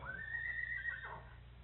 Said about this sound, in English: I've been wanting a riding horse, you know. Yes. Well, I've got one and didn't know it.